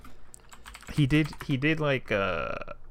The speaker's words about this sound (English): Hold on, I'm gonna have to type on mic right now.